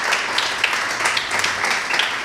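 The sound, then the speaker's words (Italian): Audience applause welcoming a guest at a business event, dense and even clapping that holds steady in loudness throughout. “Allora vi chiedo di accogliere con un bel applauso Vittoria Gozzi”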